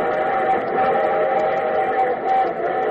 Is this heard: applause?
no

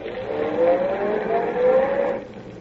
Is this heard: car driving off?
yes

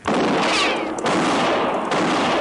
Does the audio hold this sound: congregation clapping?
no

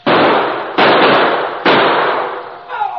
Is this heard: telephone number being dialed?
no

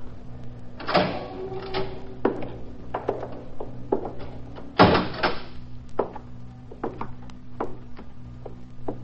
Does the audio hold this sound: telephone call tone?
no

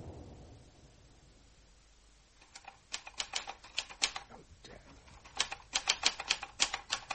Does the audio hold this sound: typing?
yes

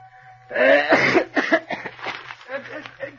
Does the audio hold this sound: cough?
yes

